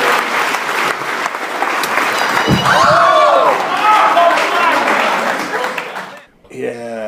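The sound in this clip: A crowd applauds and cheers as a comedian takes the stage, broken by a heavy thud as he trips and falls, followed by loud shouting from the audience and a voice speaking at the end.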